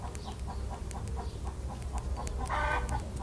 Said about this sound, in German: der bunte Hahn, pirscht sich auf leisen Sohlen an. Er lächelt und kräht entzückt.